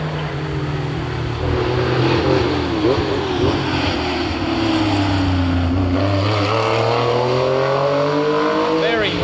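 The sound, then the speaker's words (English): A BDA Escort race car drives fast and flat through a corner, its engine a loud, sustained roar whose note dips slightly and then climbs again, with voices talking over it throughout. “BDA Escort, yeah. Coming now, through. This is going to be a fast car. We like him. Very flat through the corner there.”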